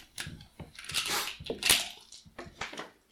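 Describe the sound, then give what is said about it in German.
A six-sided die rolled during a tabbletop role-playing game gives a quick run of sharp clattering knocks and rattles of varying loudness, with no voices. “Und dann würfelst du jetzt 1d6.”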